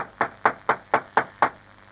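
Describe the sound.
Knocking on an embassy door: six evenly spaced, sharp knocks at a steady rhythm, moderately loud and heard alone.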